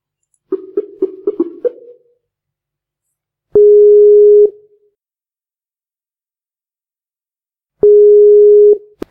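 Skype call dialing tone: a quick run of short electronic blips, then two long, steady mid-pitched tones separated by silence, loud and clean with no voices.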